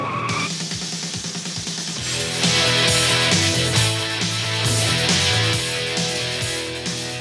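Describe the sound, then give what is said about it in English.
Tires of a Ferrari Bora squeal and skid through curves over a roaring engine, the screeching growing louder and denser after the first couple of seconds. “That's a Ferrari. 100%. A Bora.”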